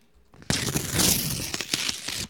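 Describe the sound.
Paper crinkles and tears as an envelope is opened, a continuous rustling crunch lasting about two seconds that begins abruptly and fades at the end.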